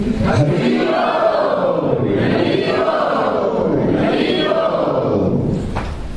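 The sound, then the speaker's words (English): A crowd chanting three very loud Hari Bols to open a show, three swelling, drawn-out shouts that rise and fall in turn, each followed by a sustained roar of many voices. “in the spirit of Pandavas Centers, we'd like to welcome the show starting with three very loud Hari Bols.”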